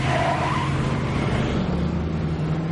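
A car accelerates along a road, its engine giving a steady, loud roar with a continuous hiss of tyre and road noise throughout.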